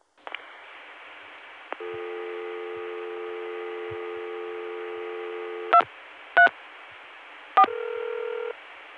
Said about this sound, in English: I dialed a 3-digit extension.